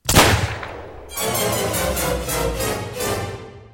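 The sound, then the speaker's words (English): Gunfire sounds in a convent, opening with one loud blast and then breaking into a sustained, rapid run of shots that pulses steadily until it cuts off. “I thought I heard guns. Are these nuns armed?”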